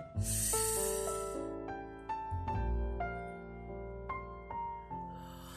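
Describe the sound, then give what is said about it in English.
A deep inhaling breath in a guided relaxation exercise, a breathy hiss that fills the first second or so, then fades under soft sustained music tones. “Number three, inhale.”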